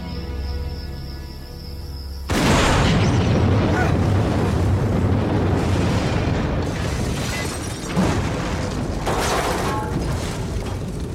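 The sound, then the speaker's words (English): A truck explodes in a fireball: a sudden loud blast cuts in after a low hum, then a dense, sustained roaring rumble carries on with a second surge near the end. “The truck explodes in a fireball.”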